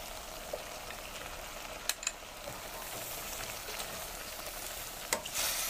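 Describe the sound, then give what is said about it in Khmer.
Mung beans sizzle faintly in a pan while being stirred, a steady quiet hiss broken by a few sharp scraping clicks. “ចាំបន្តមកទៀតគឺនេះខ្ញុំដាក់សណ្ដែកគួរចូល”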